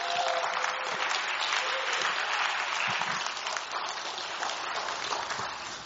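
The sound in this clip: Warm audience applause welcoming a speaker to the morning service, a steady, dense patter of clapping hands that eases slightly toward the end.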